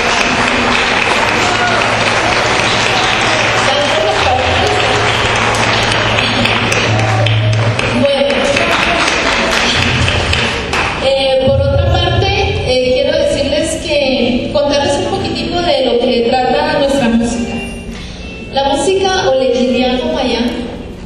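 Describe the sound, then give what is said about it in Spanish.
Sustained, loud audience applause at a Roma music gathering, a dense wash of many hands clapping continuously with crowd voices mixed in, easing slightly near the end. “es una persona que yo quiero dar un aplauso para él”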